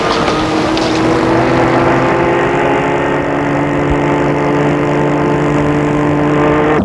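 A car engine runs as a steady, low, droning hum with layered tones. It stays at an even loudness throughout, with no clear start-up or revving.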